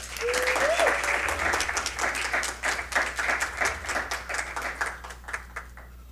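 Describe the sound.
An audience applauds to welcome a lecturer introduced before a talk on an African Indigenous approach to diversity, community and conflict. Many hands clap in a dense, lively burst that gradually thins and softens toward the end.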